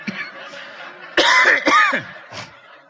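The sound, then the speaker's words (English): Coughing from a preacher mid-sermon: two loud, harsh coughs close together, with fainter throat sounds before and after. “Something in the air here, because I never cough when I preach.”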